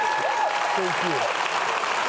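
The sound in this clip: A studio audience on a faith-themed TV show applauds a guest's arrival. The clapping is a steady, dense hiss of hands, with a voice speaking briefly over it.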